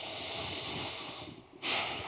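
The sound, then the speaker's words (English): A big breath drawn in, a long breathy hiss of air that stays fairly quiet, then swells into a sharper, louder rush near the end. “So let's all get a big breath.”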